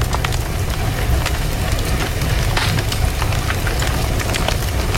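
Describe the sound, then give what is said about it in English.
Crackling fireplace fire: a dense, steady hiss dotted with many sharp pops and snaps, loud and continuous throughout, with no voices. “That was a crackling fireplace.”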